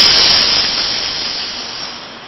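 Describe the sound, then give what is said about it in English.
A voice imitates steam escaping from a pressure cooker valve with a loud, sustained breathy hiss that fades gradually from start to finish. “like letting the steam off a pressure cooker. Pressure cooker builds up all that steam, you open the little valve and”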